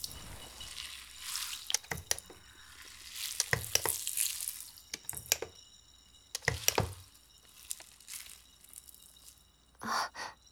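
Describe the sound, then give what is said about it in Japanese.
Carbonated shampoo foam is lathered, giving soft fizzing crackles and wet squishing bursts that come and go irregularly over a faint, quiet background. “ちょっと泡足そうかな。 泡は多い方が気持ちいいからね。”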